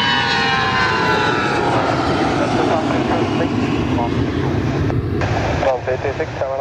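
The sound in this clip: Airliner rolling down the runway and taking off, its engines giving a loud, continuous, powerful roar that holds steady throughout, with people talking over it.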